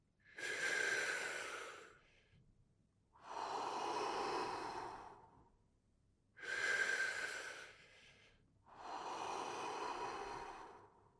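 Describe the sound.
Deep breathing in and out: four long, slow, airy breaths of about two seconds each, separated by short pauses. They are soft and steady, with no talk.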